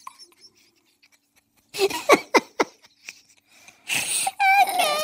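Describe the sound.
A woman hyperventilating and crying: near silence at first, then a run of sharp, breathy gasps, followed by louder, high-pitched, wavering sobbing wails.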